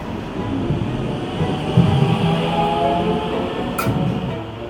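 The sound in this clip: Steady rumble of a train ride on the way to a small municipality in the Mittelland, a low, continuous rolling drone of the rail car with a brief high hiss near the end.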